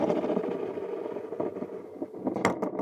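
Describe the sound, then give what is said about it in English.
A spinning top toy being spun gives off a continuous whirring hum with a steady tone and a slightly rattly texture, ending with a few light clicks. “Would you please give it a spin? Yeah, of course. Tell us what it can do. I'm staring at this thing. Yeah, of course. It's spin the top.”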